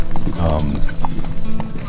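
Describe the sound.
Horse hooves clip-clop in a steady trotting rhythm, with a voice talking over them throughout.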